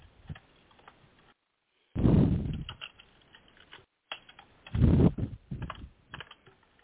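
Typing on a computer keyboard to jot down a note: brisk, clattering keystrokes in two main bursts, each loudest at its start, separated by brief pauses of silence. No voices.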